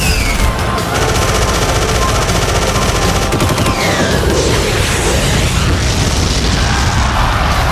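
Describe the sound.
Machine-gun fire and a booming explosion as a fighter jet is shot down in a dogfight. The barrage is loud, dense and unbroken, with rapid bursts throughout and no voices.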